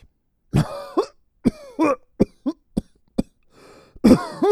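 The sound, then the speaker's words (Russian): A person coughs in a series of harsh, uneven bursts: some short single hacks, others tight clusters. A louder, rougher fit of coughing closes the sequence, with no talking in between. “Ну, давайте, кто так кашлял? Вы когда-нибудь знали кого-нибудь, кто так кашлял?”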